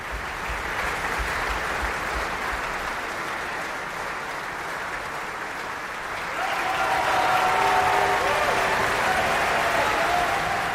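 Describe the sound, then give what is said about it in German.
Opera audience applause at Bayreuth, a long, dense sheet of clapping from a large crowd that swells noticeably louder about midway and then stays strong to the end. “Und Sie hören es am Publikum, am Applaus. Er wird hier von allen gefeiert.”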